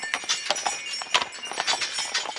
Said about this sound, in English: though sleighs are still in storage, there are horse-drawn wagon rides.